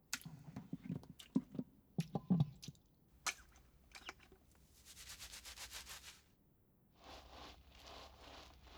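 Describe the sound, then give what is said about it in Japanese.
Hands rub and scrub a person's back during washing, starting with a few irregular soft brushes and taps, then settling into two stretches of steady, rhythmic, hissing scrubbing strokes, faint and with no voices. “では、交代じゃ。わらわの背中を流してもらえるかな？”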